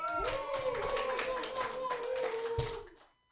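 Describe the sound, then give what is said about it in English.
An open mic audience claps for a performer, scattered hand claps under a voice that die away near the end. “So put your hands together, everybody, for your first, or snap, or do something.”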